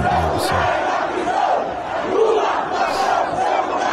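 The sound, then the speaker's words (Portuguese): A crowd of Brazilian fans shouts in a dense, continuous roar that stays at a steady, loud level, with mixed voices blending into one sustained wall of cheering and yelling. “Olha o Brasil, aí vira torcida, ó. Grita de torcida.”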